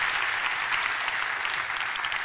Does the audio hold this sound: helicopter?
no